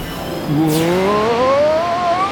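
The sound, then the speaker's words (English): A race car speeding off during a race, its engine revving hard with a whine that climbs steadily in pitch for about two seconds after a sudden start, loud and alone. “The last place racer has taken off at blazing fast speed.”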